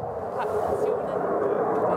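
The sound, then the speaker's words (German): Aircraft noise from a nearby airfield reaches a farmhouse as a steady, broad roar that swells slightly and holds throughout. “Es ist nicht zu überhören, dass der Bauernhof von Landwirt Peter Planck nahe beim Flugplatz liegt. Das ist das, was wir vom Flugplatz haben. Lärm”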